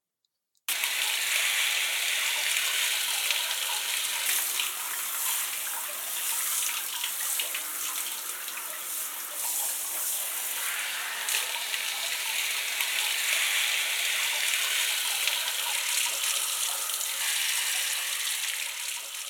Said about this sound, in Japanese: それでは流していきますね。